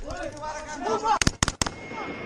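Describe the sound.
A few sharp gunshots crack in quick succession during a patrol in a Taliban-contested city. The loud bursts cut through a man's shouting.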